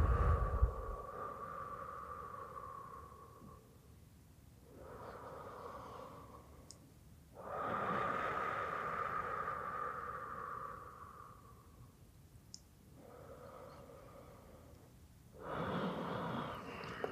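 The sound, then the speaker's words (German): Slow, deep breaths in and out during a guided breathing exercise: several long, soft airy exhalations and inhalations alternate with quieter pauses, over a faint steady tone. “alles gehen lassen, auch die letzte Luft rauslassen und wieder neu einatmen. In deinem Tempo.”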